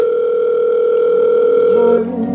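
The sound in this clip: A telephone dial tone while a call is placed, a steady, unbroken tone held for about two seconds before it stops and fainter sound follows.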